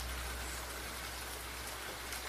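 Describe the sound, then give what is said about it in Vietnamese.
Heavy rain pours down in a steady, unbroken hiss that stays even throughout with no distinct drops standing out. “mưa mỗi lúc một nặng hạt”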